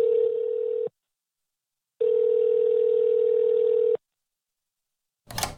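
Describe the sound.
Telephone ringing tone for an incoming call: two steady, even tone bursts, a short one then a longer one, separated by silence, followed by a brief noisy crackle at the end.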